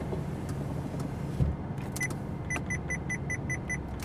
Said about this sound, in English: There is a bit more road noise than usual here because I have my windows down at the moment, so let me take care of that.